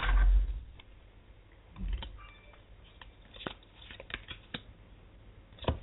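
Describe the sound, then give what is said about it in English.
Tarot cards being pulled and shuffled: a soft rustle at the start, then many light papery taps and clicks at an uneven pace, mostly faint. “So let me pull some cards for you, Roxy.”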